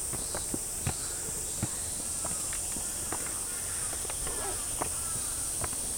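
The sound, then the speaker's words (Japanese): People climbing stairs outdoors on a trip in Izu, Japan, make soft, scattered footsteps under a steady, high insect buzz. “みんな階段登ってます頑張って。”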